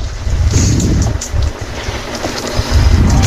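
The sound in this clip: Gusty wind sweeps across a baseball park during a game, buffeting the microphone with heavy, uneven low rumbles that swell and ease in bursts.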